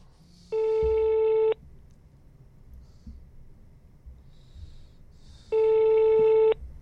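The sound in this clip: A telephone busy signal gives two loud, steady tones of about a second each, separated by a long pause and set over a faint low background hum.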